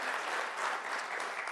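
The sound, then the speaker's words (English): A church audience claps for the announcement of a new church campus in Redmond, with brief, steady applause from many hands at an even level throughout. “Yeah, you can clap for that, for sure. It's a good thing.”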